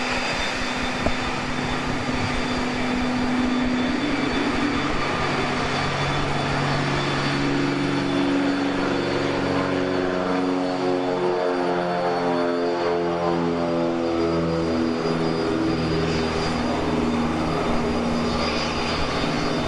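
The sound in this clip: A propeller aircraft taxis in, its engine a loud, continuous droning hum with layered buzzing tones that shift gradually but never drop out.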